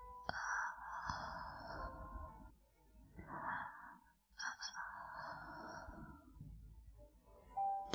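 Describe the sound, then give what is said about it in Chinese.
Slow, close breathing in a soft, whispery, intimate setting. A few long airy breaths come in unhurried succession, with quiet gaps between them. “闭上眼睛，听着我的呼吸，与我同在。”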